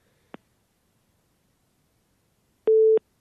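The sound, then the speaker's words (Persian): A telephone busy tone after a caller's line is cut off: a faint click, then a single short, steady mid-pitched beep framed by clicks, alone without talk. “بله تماس این دوست ما هم قطع شد.”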